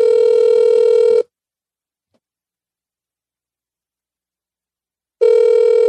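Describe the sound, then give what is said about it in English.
Ringback tone of an outgoing phone call, loud and steady: the tone sounds for about a second, stops for about four seconds, then begins again. No voices. “I don't know if she's going to pick up. All right. Let's see. All right. Let's see. Voice call.”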